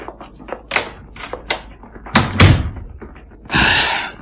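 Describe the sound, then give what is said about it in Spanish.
A door swings shut with a heavy thud and a broad, noisy burst, among a few shorter knocks and clatters. “cerraré la puerta.”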